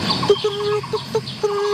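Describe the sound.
A woodpecker calls loudly and penetratingly: a series of clear, tonal notes, some short and clipped, others drawn out and steady, repeated in an irregular rhythm.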